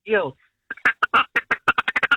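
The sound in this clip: A duck call blown as a staccato feeding call: one longer quack, a short pause, then a rapid run of many clipped quacking notes that speed up toward the end.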